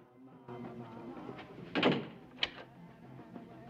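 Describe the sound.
A chalet door swings shut with a soft dull thud, followed shortly by a sharper knock, all fairly faint over low background noise.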